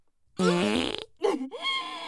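A fart sound effect: a loud, buzzy, low burst lasting about half a second, then a second rougher, sputtering burst after a short gap.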